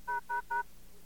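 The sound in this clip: Three evenly spaced touch-tone keypad beeps dial an AT&T-operated teleconference service in the 700 area code. Each beep is a short, steady dual tone, heard clearly on its own with brief gaps between them.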